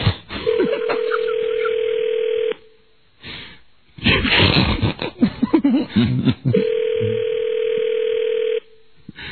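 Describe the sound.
Two long, steady telephone ringback tones, each lasting about two seconds, sound while a call waits to be answered, with a burst of people talking between the two rings.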